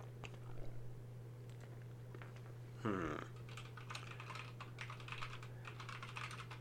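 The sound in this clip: Typing on a computer keyboard while notes are written: many quick, light key clicks in uneven bursts over a steady low hum, with no talk.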